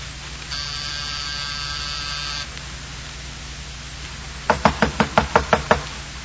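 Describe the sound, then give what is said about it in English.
A buzzing doorbell sounds in one steady, harsh tone for about two seconds. After a short pause, a quick run of sharp knocks on the door follows. “It was close to 5:00 when I rang his doorbell.”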